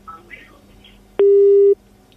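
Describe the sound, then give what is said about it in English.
Single steady telephone tone after a radio phone-in caller's line drops, one loud, flat, mid-pitched beep lasting about half a second, following faint speech. “Well, that line there of Salim has just been dropped.”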